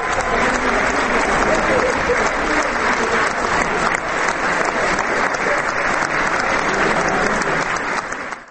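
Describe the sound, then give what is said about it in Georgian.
Sustained applause from an audience in a city library hall in Prague, an ovation for a Georgian polyphonic folk ensemble. Dense, loud, even clapping carries on without a break and fades slightly at the very end. “საოცრად შესრულებულმა მრავალხმიანმა ქართულმა სიმღერებმა არაერთხელ დაიმსახურა პრაღის ქალაქის ბიბლიოთეკაში შეკრებილი მაყურებლის ოვაცია.”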